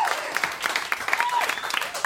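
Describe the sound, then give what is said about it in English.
An audience bursts into applause for a performer being introduced, with dense, steady clapping throughout and no break. “Clap your hands for Matt Kirshen.”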